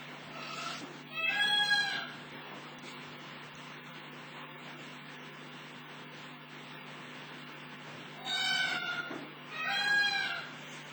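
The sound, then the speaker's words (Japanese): Indian peafowl calling at dusk in India produce loud, wailing, cat-like cries. One call comes early, then two more close together near the end, over quiet background noise and a steady low hum. “これはあのインドクジャクの鳴き声です。”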